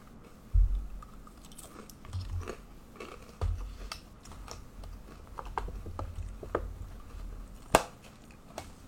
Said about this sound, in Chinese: 想吃饼干就吃，想追星就追，好好吃哦。